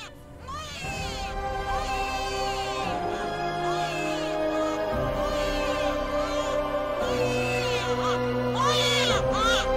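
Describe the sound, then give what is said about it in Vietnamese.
A newborn baby cries in repeated wavering wails that echo, over sustained low tones. “Chỉ có tiếng trẻ sơ sinh vẫn vang vọng khóc ở đâu đây.”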